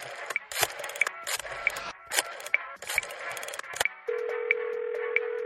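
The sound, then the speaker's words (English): Rotary telephone dial turned and released several times on a landline, giving bursts of ratcheting clicks separated by short pauses, followed by a steady low telephone tone that continues to the end. “do I even still have a landline? Here. Oh, God. Rotary dial? Are you kidding?”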